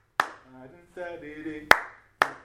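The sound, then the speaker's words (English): Sharp hand claps mark a highlife rhythm from Ghana, three crisp, loud strikes spaced unevenly around a short sung or hummed melodic phrase in between. “So most of the Ghana high life music, you can also hear this. Because our hand clap is.”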